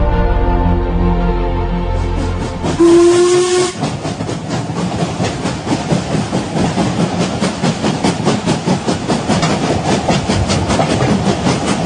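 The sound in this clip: A steam train gives a loud, high steam whistle blast, then settles into fast, rhythmic chuffing and hissing that continues steadily to the end, with no voices.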